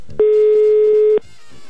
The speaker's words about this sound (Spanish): Estoy intentando marcar. Son las 10:02. Ya entró la llamada